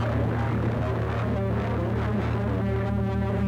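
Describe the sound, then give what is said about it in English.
A synthesizer patch using the cloud noise algorithm produces a continuous droning, throbbing tone with a grainy, noisy texture. It holds steady at an even loudness throughout, with no voices. “This is the cloud noise algorithm.”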